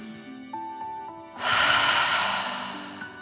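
Deep breathing during a relaxation exercise: soft sustained tones give way to one long, loud, airy rush of breath that holds steady and slowly fades toward the end.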